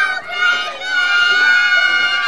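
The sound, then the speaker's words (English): Preschoolers at a learning centre in Perry Hall cheer for the Ravens, a loud, sustained chorus of high young voices shouting together that dips briefly and then swells again. “All of our classrooms are cheering on the Ravens, and everyone's very excited.”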